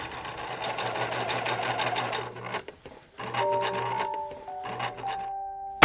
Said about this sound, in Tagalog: Kaya lang, isang gabi, biglang nasira ang sewing machine niya.